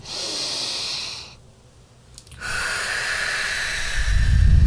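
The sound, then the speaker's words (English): A long, deep breath drawn in, heard as two soft, airy hisses separated by a short silence, alone and fairly loud, with a low rumble rising at the very end. “Take a big, deep breath in with me.”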